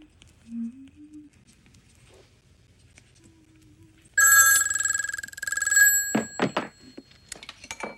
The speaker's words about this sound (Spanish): Coge un mando a distancia para contestar. ¿Hola? No funciona, pero lo intenta de nuevo. Diga... Suelta el mando y va directamente al teléfono, que lo tiene a un metro de distancia.